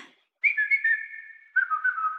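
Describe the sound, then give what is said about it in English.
A person's whistled family call, once used by a father to summon his daughter and later taught to her son. Two sustained, fairly loud whistled phrases, the second slightly lower in pitch, with no talking. “When I got older, I taught it to my son. But that's our family whistle.”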